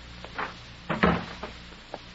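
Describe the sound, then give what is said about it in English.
A door shuts in a warehouse with one firm, solid thump, surrounded by a few lighter knocks and rattles; no one speaks. “Close the door.”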